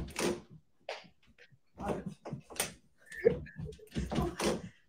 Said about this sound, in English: What is wrong with the doorknob? It's a fingerprint lock. Nope. Why is there a fingerprint lock on our pantry?